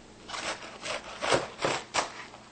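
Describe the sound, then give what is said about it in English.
A sharp knife cuts through a cabbage, halving it, with several crisp, crunchy slicing strokes at an uneven pace, fairly quiet overall. “So what we'll do is we'll go ahead and cut it again in half.”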